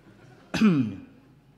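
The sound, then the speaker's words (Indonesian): A single short cough, a sharp burst that fades into a brief voiced, rasping tail, heard alone with no talk around it. “Batuk, minum obat.”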